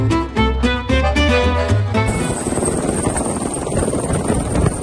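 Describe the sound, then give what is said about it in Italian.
Helicopter flying low over a sugar cane plantation in Queensland to drop baits, its steady rotor roar and a high engine whine taking over after about two seconds of music and continuing evenly to the end. “Un elicottero vola basso su una piantagione di canne da zucchero in Queensland per gettare delle esche contro un invasore nocivo.”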